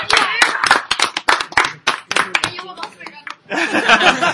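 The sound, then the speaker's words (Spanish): An audience at a comic convention event claps in uneven bursts mixed with chuckles and voices. The clapping drops away briefly, then swells again, loud and dense, near the end. “Fuerte aplauso para Joey Jr.”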